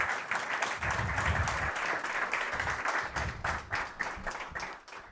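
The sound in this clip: An audience applauds an award winner, a restaurant venue director receiving a prize. Dense, continuous clapping holds steady, then thins and dips toward the end.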